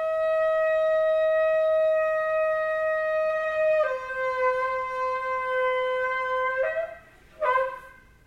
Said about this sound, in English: would you bring your shofar up here, and would you just show us what that last trumpet call, it's going to be held out long and loud